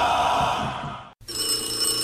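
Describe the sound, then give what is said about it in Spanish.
Telephone ringing with a steady, bright, electronic-sounding trill. It is interrupted by one brief silent gap and then resumes, fairly loud and with no voices over it. “¡Contesta el teléfono!”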